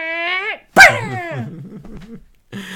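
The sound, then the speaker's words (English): A voice imitates a toy robot dog barking with a few short, yappy, tonal bark-like vocal bursts. Each burst is separated by brief gaps and is fairly loud. “Do you remember when everybody wanted one of those little barking dogs that would go, and then they go,”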